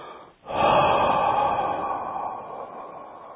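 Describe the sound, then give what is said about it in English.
A long, slow exhale through the mouth during a guided breathing exercise: a brief quiet intake, then a steady, airy rush of breath that holds and gradually fades toward the end. “So we exhale from the mouth, inhale from nose. One, we'll do this 10 times, okay? Exhale long, slow from mouth”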